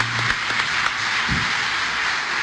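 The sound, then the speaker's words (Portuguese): Congregation applause during a church worship service: a steady, dense wash of clapping that holds at an even level throughout, with no voices standing out. “aplaudam esse nome, porque nesse nome tem poder.”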